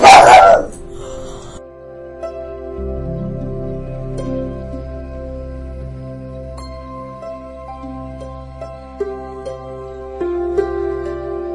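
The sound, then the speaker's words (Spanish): A small female dog barks at birds seen through a window, with a loud burst of barking at the start followed by softer, quieter sounds. “mi perrita que le está ladrando a las aves que ve por la ventana.”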